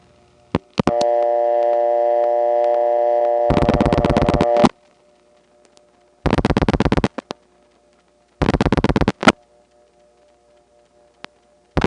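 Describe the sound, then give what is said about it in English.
Telephone tones for a disconnected number, September 1970 Atlanta: a few clicks, a steady buzzing tone that turns into rapid pulsing, then two shorter bursts of fast pulsed tone separated by silence. “here's what a call to a disconnected number would have sounded like in the Trinity Step in September 1970.”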